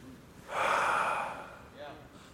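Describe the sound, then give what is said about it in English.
A church audience inhales deeply together, a single swelling, breathy rush that peaks quickly, lasts about a second and then slowly fades. “All let's take a deep breath.”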